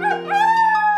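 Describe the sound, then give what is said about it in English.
A pet wolf howls during a wilderness-themed medal presentation: a single steady, tonal howl held at a fairly even pitch for about a second, loud and alone with no talk. “does anybody else hear a wolf howling?”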